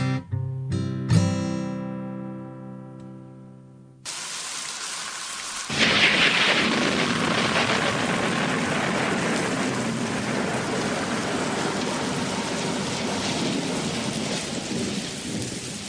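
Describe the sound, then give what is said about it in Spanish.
Rain and thunder used as a sound effect in background music: a few seconds of soft tonal music give way to a dense, steady hiss of heavy rain with low rumbling that grows louder and continues without talk. “No crean que está lloviendo, es el efecto musical de nuestro fondo”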